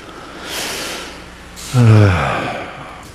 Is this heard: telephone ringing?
no